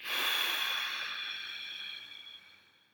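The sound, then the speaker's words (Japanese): One long, airy breath from a guided deep-breathing exercise rushes out loudly at first, then fades steadily over about three seconds, with no talking. “吸ってください。吐いてください。”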